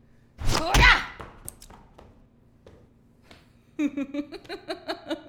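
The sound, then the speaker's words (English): A punch lands as a single heavy, loud thump with a brief rumbling tail, followed by a stretch of quiet and then a speaking voice. “Here, let me show you what the real punch is like.”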